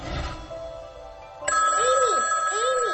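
A telephone rings in a home: an electronic ringtone starts partway through, loud and warbling, with a repeating melodic pattern.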